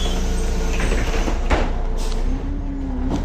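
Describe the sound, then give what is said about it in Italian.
A city bus pulls up and its doors slide open with a hiss as a passenger boards. A steady, loud engine rumble runs throughout, with a brief airy burst midway and a faint rising whine near the end. “Ecco l'autobus.”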